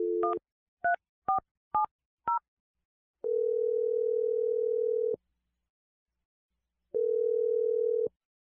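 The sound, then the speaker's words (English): Touch-tone dialing on a telephone: five quick, clean keypad beeps in a row, followed by two long, steady, even tones separated by a short silence, with no voices. “I'm going to dial it right now. Here we go.”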